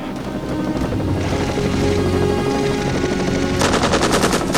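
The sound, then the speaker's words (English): Machine-gun fire sprays from a helicopter into the jungle, a loud, continuous rattle of rapid shots that turns into sharper, more distinct bursts near the end. “The chopper peppers the jungle with bullets”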